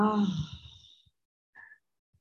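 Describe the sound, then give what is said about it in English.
A slow exhale through the mouth during a guided breathing exercise: one soft, voiced, sighing breath that fades out over about a second, then quiet with a faint brief sound. “take a breath in through the nose and an exhale slowly, gently through the mouth.”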